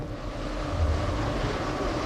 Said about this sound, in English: It's not really the cold, it's the wind.